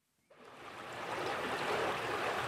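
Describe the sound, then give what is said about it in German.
The Schwarzbach stream near Bludesch in Vorarlberg, flowing calmly into the Ill in winter, makes a steady rushing hiss of water. It starts after a moment of near silence and swells slightly, then holds even. “Jetzt im Winter zeigt sich der Schwarzbach von seiner friedlichen Seite. Ruhig fließt er bei Bludesch im vorarlbergischen Wallgau in die Ill.”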